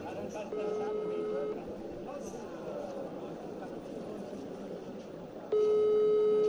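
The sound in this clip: A telephone call rings unanswered, with two clear ringback tones about four seconds apart. Each tone lasts roughly a second over low background noise.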